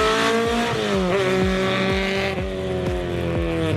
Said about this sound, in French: ça hurle, le moteur il prend 8000 tours. Pour un petit 4 cylindres, c'est quand même assez incroyable.